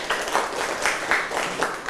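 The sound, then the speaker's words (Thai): Students clap in a classroom for a classmate, a brief burst of steady, dense applause with no talk over it. “นักเรียนอ่ะเก่งมากครับปรบมือให้เพื่อนหน่อยครับ”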